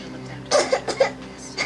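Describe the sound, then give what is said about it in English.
A child gives a few short, rough coughs in quick succession during a doctor's stethoscope examination of the back. The coughs are moderately loud over a quiet background hum. “A doctor wearing a white coat places a stethoscope on a child's back. Okay, hon, one more cough.”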